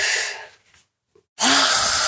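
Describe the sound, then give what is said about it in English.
A forceful exhale, with breath pushed out in a loud, rough, sustained hiss carrying a faint voiced hum. It comes after a softer breath that fades into a brief silence. “And so you breathe out.”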